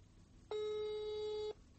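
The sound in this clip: A telephone ringback tone plays as a call is placed: a single steady, buzzy tone lasting about a second, set against faint background hiss.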